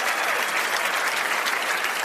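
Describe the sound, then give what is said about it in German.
Dense, steady applause from an audience of about 2000 people at an outdoor event in the heat, a continuous wash of many hands clapping at even loudness from start to finish with no voices over it. “Da sitzen einfach mal wirklich 2000 Leute und meine Gäste. Und das ist schon mal euer Applaus.”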